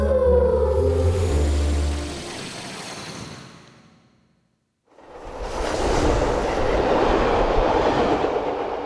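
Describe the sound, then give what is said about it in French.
A regional express train passes on rails with a loud roaring rumble that fades to near silence, then a second roaring surge rises and holds steady to the end. “C'était le Régio Express, un voyage intercorporel dans le cycle de la vie.”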